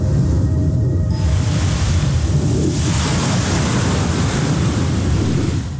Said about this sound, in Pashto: د شمال له پښه او د څپو له څړپه پرته ژغ ژغ نه و.